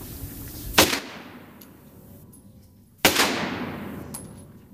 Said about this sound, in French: Ok, on enlève la sécurité. L'arme, elle est prête au tir.